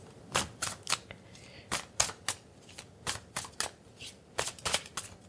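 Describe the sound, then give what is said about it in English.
A deck of cards being shuffled and handled, heard as a quick series of crisp, papery snaps and riffles in uneven bursts, fairly faint. “Let's pull these cards and get up out of here.”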